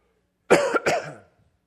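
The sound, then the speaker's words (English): Coughing and throat clearing with a communion wafer stuck in the throat: two quick, rough coughs close together, fading out within about a second, with no talk. “sorry, I got the communion in my throat here”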